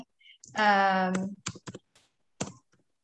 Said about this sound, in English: Let's see, I'm just going to type in card number.